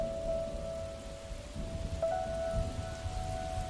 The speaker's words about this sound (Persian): اولین روزی که بعد از یک سال بارون بارید.